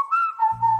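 Whistle sound effect in a DQ advert, a short two-part whistled tone whose second part sits slightly lower, with a low humming sound entering halfway through.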